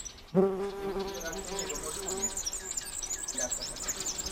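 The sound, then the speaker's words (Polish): Bees buzz around a beehive in the early morning, a dense continuous hum of many insects that holds steady through the whole clip at a fairly quiet level. “tu już można podejść do tego ula, czy jeszcze nie?”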